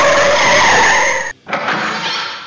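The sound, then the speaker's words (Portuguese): Brakes pulled and tires skidding as a sound effect: a loud, harsh screech that cuts out briefly, then returns and carries on to the end. “puxa o freio.”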